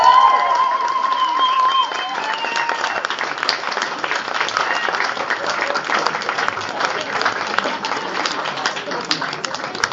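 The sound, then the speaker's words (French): Audience applause at an award ceremony during a comics festival: a dense, steady roar of many hands clapping that holds at an even, loud level for the whole stretch, with some voices mixed in near the start. “messieurs, je pense qu'il mérite encore un applaudissement.”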